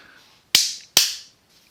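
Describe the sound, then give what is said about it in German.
Two sharp hand claps, each a crisp, loud crack with a quick decaying tail, spaced a little under half a second apart in an otherwise quiet setting. “Ich habe geklatscht, damit ich später den Ausschlag sehe, damit ich das besser finde.”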